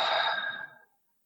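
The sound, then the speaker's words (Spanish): A single slow inhaled breath taken during a guided breathing routine, a soft breathy hiss that holds steady for a moment and then fades out in under a second, with no talk. “Vamos a seguir nuestra rutina, ya sin guía, vamos a inhalar.”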